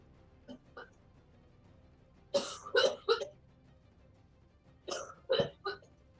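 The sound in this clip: A person coughs during a tabletop role-playing game. There are two clusters of short, harsh coughs, a few rapid bursts followed after a pause by a few more, fairly faint over a quiet background.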